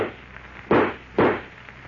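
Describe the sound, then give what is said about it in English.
Two gunshot sound effects in a Superman radio drama, fired at Superman: two loud, sharp blasts about half a second apart, each decaying in a booming tail. “Don't move, I said. I'll shoot. Go ahead.”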